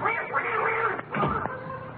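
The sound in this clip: A duck quacks in a few raspy, nasal calls that run together, fairly loud and steady, with a short break near the middle before the calls resume.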